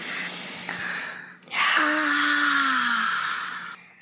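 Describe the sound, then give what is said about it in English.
A deep breath, audible as a soft airy rush that swells into a long, voiced sigh with a gently falling pitch, then fades out. “So he closed his eyes, put one hand on his heart, and took a deep breath.”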